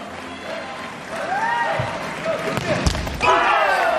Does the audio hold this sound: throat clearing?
no